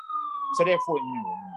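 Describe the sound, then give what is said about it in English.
An ambulance siren sounds outside as a steady high wailing tone that drifts slowly lower in pitch, with a man's voice speaking briefly over it. “Ridiculous of this ambulance.”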